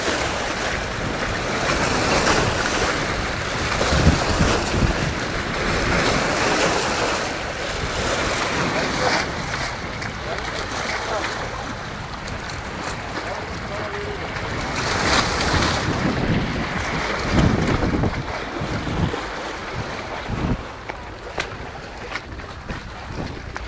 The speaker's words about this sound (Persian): اوه داشتیم خیس میشدیم ها. یه موج بزرگ اومد.